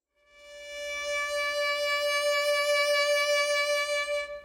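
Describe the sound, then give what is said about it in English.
Sustained D note played with vibrato, a rich, bright tone with many overtones and a gentle, even waver in pitch, fading in softly and holding steady before it stops. “So I'm going to take a D note, and I'm going to do some different vibrato styles and widths and speeds and all of that. So vibrato could sound like this.”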